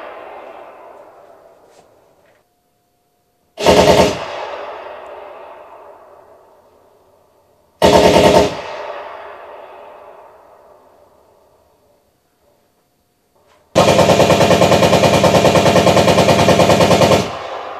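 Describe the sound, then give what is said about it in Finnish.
Recorded machine-gun fire recreating trench-warfare machine-gun nests on defensive lines: two short, loud bursts, each trailing off in a long echoing decay, then a sustained burst of about four seconds. No talk. “mitenkä oli asemasodan aikana puolustuslinjoilla konekivääripesäkkeitä. Ja jotta me saadaan mahdollisimman aidosti tuntea se ja kuulla, millä tavalla tämä homma on toiminut.”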